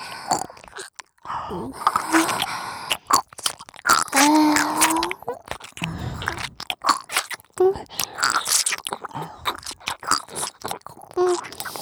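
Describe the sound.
Wet chewing close to the mic: many irregular bites, crunches and smacking mouth sounds in uneven bursts, fairly loud throughout with brief pauses between chews.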